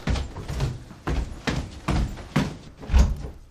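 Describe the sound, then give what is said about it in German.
A bedroom door is closed upstairs on the first floor of an empty house, giving a series of several dull wooden thumps and knocks at uneven intervals, the last one the heaviest. “Der Gutachter schließt die Schlafzimmertür oben im ersten Stock.”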